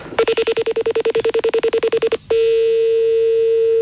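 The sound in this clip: Telephone tones while calling a colleague: a loud, rapid series of many short, evenly spaced beeps, then a single steady tone that holds to the end. No voices.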